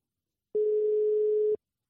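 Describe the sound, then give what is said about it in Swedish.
A single steady telephone ring tone, one continuous even beep lasting about a second, heard alone against silence. “Ring, ring, ring.”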